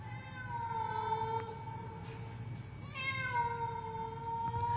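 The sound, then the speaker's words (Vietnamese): A cat meows twice, each call long and drawn out with a clear, wavering tone, over a faint steady low hum. “nó thậm chí còn đứng lại, kêu lên mấy tiếng meo meo như là mời gọi.”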